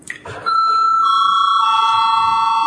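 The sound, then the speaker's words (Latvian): A bell rings in the Latvian parliament chamber to call members to a vote. After a short noisy onset, a bright, sustained electronic tone with ringing overtones holds steadily to the end. “Lūdzu zvanu.”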